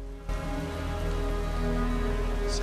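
Rain falling in a continuous, even hiss, with a steady low drone underneath and no voices.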